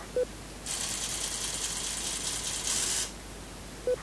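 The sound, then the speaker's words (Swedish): A radio antenna tuning unit rattles as it tunes with output power turned right down, a harsh steady buzzing chatter lasting a couple of seconds, framed by a short beep just before and another just after. “Då hör vi ett ganska gediget rassel från antennavstämningsenheten och det betyder då att den inte alls var någon glad nöjd med tillvaron och det var faktiskt meningen.”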